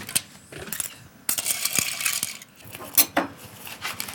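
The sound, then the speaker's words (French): Cooked cockles are cleared out of a pan in an irregular rattling clatter of shells against metal, with scattered sharp clicks and clinks at moderate loudness. “Ce que je vais faire, c'est que je vais débarrasser les coques.”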